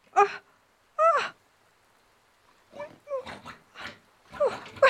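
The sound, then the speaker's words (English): A frightened, big-eared piglet squeals from inside a closet. Two separate strained, high-pitched squeals come first, followed by a quicker run of short squeals and grunts. “Look at you, a big-eared piglet. Oh, you poor little thing.”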